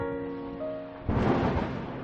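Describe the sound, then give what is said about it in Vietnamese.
A thunderstorm with rain: a faint steady hiss over a low hum, then a rolling rumble swells suddenly after about a second and stays heavy to the end. “Trời đất, vừa nãy xem thời tiết á, trời còn nắng đẹp mà sao chớp mắt cái âm u sấm chớp rồi, còn mưa nữa.”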